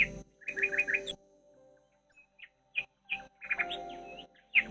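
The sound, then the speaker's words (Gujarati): Parrots chirping and calling: bright, rapid bird tweets in clustered bursts, a quiet pause in the middle, then more busy, overlapping chirps. “બધા પોપટો નવી જગ્યા જોઈને બહુ જ ખુશ થયા અને ખુશીથી ગાવા લાગ્યા.”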